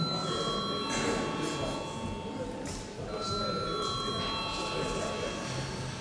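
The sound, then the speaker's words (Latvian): Electric bell ringing in a parliament chamber to call members to a vote, a continuous buzzing ring with steady tones that persists throughout under a murmur of voices. “Lūdzu zvanu.”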